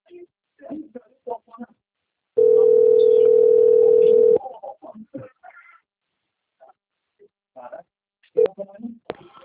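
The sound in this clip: A telephone dial tone as a call connects: a loud, steady single-pitch tone holding for about two seconds, with talk before and after it and a short beep later on.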